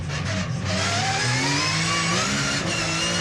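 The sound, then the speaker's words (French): A car accelerating hard up to about 220 km/h, its engine a loud continuous drone whose harmonics climb steadily in pitch as the speed builds, with no voices. “Oh là, qu'est-ce que ça pousse. 3, 4, 5, 200, 207, 220 km/h.”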